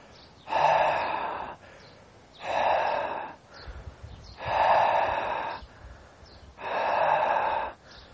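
Deep, slow breathing during a guided breathing exercise: four long, even breaths, each swelling and fading with a soft airy rush, separated by quiet pauses.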